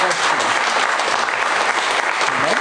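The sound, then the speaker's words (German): Dense, steady applause from an audience welcoming a woman during a church service, loud and unbroken throughout with no talking over it. “Sie müssen noch weiter klatschen.”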